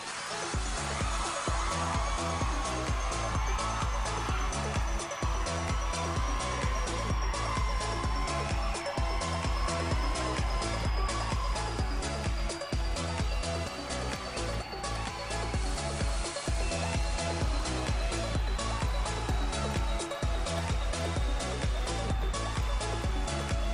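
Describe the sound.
Electronic dance music plays loud and continuous, with a steady pounding kick beat, a bright sustained synth lead and a full bass line driving without pause throughout.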